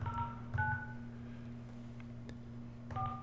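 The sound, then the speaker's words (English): Touch-tone telephone dialing: three short dual-tone beeps, the first two close together, then a pause before the third near the end. The beeps sound over a faint, steady low hum. “We are dialing the 40-ounce aficionado, Christian Grau.”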